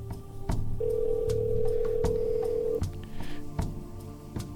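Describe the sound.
Ringback tone of an outgoing telephone call: one steady, mid-pitched ring lasting about two seconds, with a few faint clicks before and after it.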